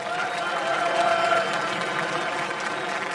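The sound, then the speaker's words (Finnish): Audience applause for a group of university engineering students, a steady even wash of clapping at moderate loudness throughout, no talk over it. “Annetaan vielä aplodit Tampereen teekkareille.”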